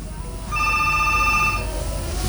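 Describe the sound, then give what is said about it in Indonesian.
Telephone ringing with an incoming call: a single bright, electronic ring burst lasting about a second stands out over a low, steady background noise. “Oke, kita coba terima dulu penelponnya”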